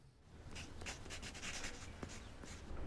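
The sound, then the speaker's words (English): Pencil scratching across paper as a hand sketches a curved line in a life drawing class; a soft, steady rasp with several brighter strokes, no voices. “A hand guides a pencil over the paper, drawing a curved line.”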